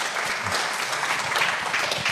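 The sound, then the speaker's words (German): Applause during a German political debate on pensions, a full, continuous wash of many hands clapping that stays fairly even in loudness from start to finish. “Und diesen Applaus wollen wir nicht unterschlagen.”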